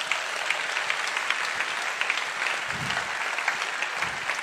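An audience applauds the Lord during a church service, dense and continuous clapping that holds a fairly even loudness from start to finish.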